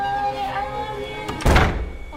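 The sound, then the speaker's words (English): A door is closed with a single dull, solid thunk that cuts in after a stretch of low steady humming background, then settles back. “I'm closing the door now.”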